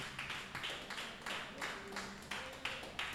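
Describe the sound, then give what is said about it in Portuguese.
A church audience claps in a steady rhythm, faint hand claps repeating at an even beat throughout. “Vamos receber o servo de Deus com palmas bem alegre para Jesus.”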